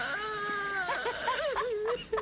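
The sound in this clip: A woman cries in tremulous, wavering whimpers, her high voice bending up and down in sobbing pitch swings for about two seconds without any words.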